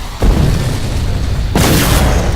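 Rocket launcher explosions in a video game: two heavy, loud booms, each bursting into a sustained roar of noise, the second hitting while the first is still ringing out.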